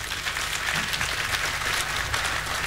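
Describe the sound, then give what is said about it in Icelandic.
A concert audience at a tribute show applauds with thick, even clapping that carries on steadily throughout with no talk. “Já, það má alveg klappa fyrir því.”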